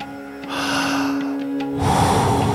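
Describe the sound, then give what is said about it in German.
A deep breath taken during a workout exercise: a long, airy inhale followed by a stronger, rushing exhale, over a steady tonal background. “Voll einatmen und dann wieder loslassen. Jawohl. Voll einatmen und dann wieder loslassen.”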